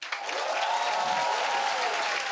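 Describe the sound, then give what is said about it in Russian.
Audience applause fills the room after a performer's line. It is loud, sustained and evenly textured from start to finish, with no single claps standing out. “Не надо хлопать, журнал медицинский.”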